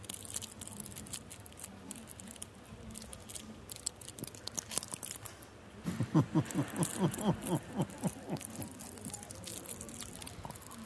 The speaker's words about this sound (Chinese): 那我应该吃个糖果吧。